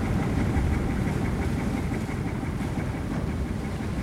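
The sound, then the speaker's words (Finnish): A salmon-fishing boat's engine runs steadily while under way, heard beside the wheelhouse: a constant, even low rumble and drone with no change in pace and no voices. “Olen tässä ajohytin sivussa. Vene kulkee vielä tasaisesti.”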